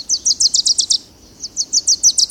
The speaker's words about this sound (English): Young male warblers, fledged in June or July, have been learning their father's songs all summer. Next spring, they will sing these songs too.